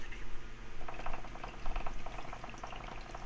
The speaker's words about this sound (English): Hey, let's get a moment of silence for the bong.